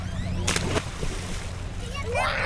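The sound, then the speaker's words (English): Children splashing and leaping from a makeshift dock into the murky water of the Rio Grande: a continuous watery wash with a couple of sharper splashes near the start. “Along the banks of the Rio Grande, a small group of kids splash in the murky water. They wear shorts with no shirts, and they leap from a makeshift dock into the river.”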